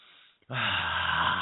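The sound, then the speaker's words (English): A voice imitates a deep breath, drawing in a loud, rough, breathy inhale that begins abruptly after a brief quiet moment and holds steady to the end. “You squished your little toes around on your shag carpet, and you took that deep breath.”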